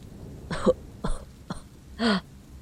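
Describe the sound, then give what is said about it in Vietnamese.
A man coughing in a hacking fit: four rough, spaced coughs, the last one longest and most strongly voiced. “Người đàn ông ho lên sù sù, cố dồn hết hơi tàn ho một tràng rút ruột”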